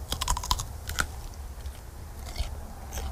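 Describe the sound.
Crisp bites and chewing of a fresh, very juicy cucumber: a quick run of sharp, crackly crunches early on, then a few sparser crunches, with no talk.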